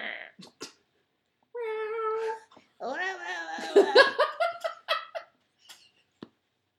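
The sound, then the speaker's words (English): A voice imitates a weird cat meow: two drawn-out, warbling, meow-like cries, the second longer and wavering before breaking off, with short bursts around them. “So it's just every cat with like a weird, and all cats have weird meows. Yeah. Little freaks like,”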